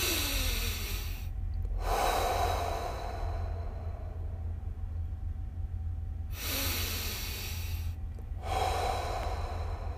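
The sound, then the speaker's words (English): Two slow, deep breaths taken during a guided relaxation exercise, each a long airy inhale followed by a softer hissing exhale, with quiet pauses between them. “I want you to take two more deep breaths.”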